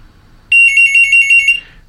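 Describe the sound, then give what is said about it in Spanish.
A telephone rings for an incoming call: one high-pitched electronic burst of rapid, even warbling pulses lasting about a second, loud and alone over faint background. “Hay llamada telefónica.”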